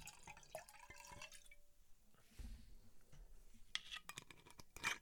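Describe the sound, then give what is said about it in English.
A drink is poured right next to the microphone: faint irregular dripping and splashing liquid, with scattered small bursts rather than a steady stream. “I'm going to top up my drink so you can cut this bit out. Glug, glug, glug, glug, glug, glug, glug.”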